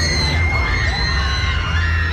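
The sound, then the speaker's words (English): Riders screaming on an amusement-park roller coaster: many overlapping high shrieks with gliding pitch, continuous and loud over a steady rumble of the ride. “That is a sure sign of La Ronde. Just the screaming.”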